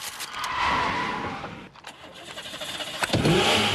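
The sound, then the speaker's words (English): A car speeds down an alley during a chase, its engine roaring steadily with rushing noise, dipping briefly, then swelling again with a sharper burst near the end. “The driver takes the car down an alley, but a lorry blocks his path.”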